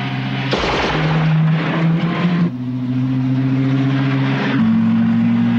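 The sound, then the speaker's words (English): A car engine roars as the vehicle drives over sand dunes, a loud, continuous drone whose tone shifts a couple of times as the engine works, with rough bursts of noise in the first few seconds. “Desperate to get away, Mike drives over sand dunes, but the guards follow.”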